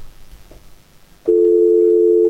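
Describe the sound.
Telephone dial tone after a handset is picked up: a faint stretch of background noise, then a loud, steady, continuous hum that holds at one pitch until the end.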